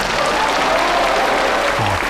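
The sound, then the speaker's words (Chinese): Audience applause welcomes a singer onto the stage to perform his song, a dense, steady patter of many hands clapping that holds at an even, loud level for the whole clip. “大家掌声欢迎。”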